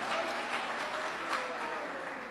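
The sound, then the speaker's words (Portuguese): Church audience clapping for Jesus, a dense, even rush of many hands sustained for the whole stretch, fairly faint, with voices blending faintly underneath. “Mais forte as palmas para Jesus, oh glória a Deus, aleluia.”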